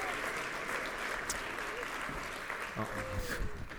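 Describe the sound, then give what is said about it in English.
Applause from a church audience, a soft, steady patter of many hands clapping at a low level throughout, with a few sharper claps and a voice near the end. “let's go ahead and give another round of applause here for Brittany.”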